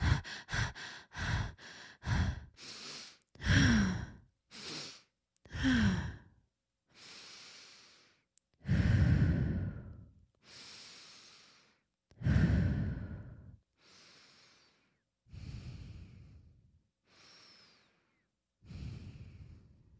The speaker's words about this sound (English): and then maybe a nasal inhale and exhale.